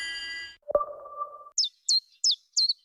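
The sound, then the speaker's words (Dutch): Chiffchaff song: four short, high, evenly spaced chirps given alone in a steady rhythm, following a couple of brief sustained tones. “Wanneer hoor jij de eerste tjifjaf?”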